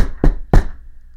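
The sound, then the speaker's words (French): Two loud, hollow knocks land on a door in quick succession, each a heavy thud that dies away fast, followed by quiet. “La nuit allait tomber quand on entendit frapper à la porte.”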